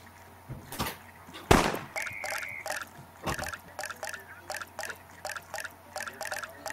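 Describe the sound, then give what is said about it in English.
Water drops dripping from faucets in a drop-counting game, a faint irregular series of many small plinks and drips with one louder splash early on, over a soft steady background. “Which faucet has dropped more water? I think it's the right one. You have selected the faucet 2, the faucet number 1 has emitted 9 drops, the faucet number 2 has emitted 10 drops.”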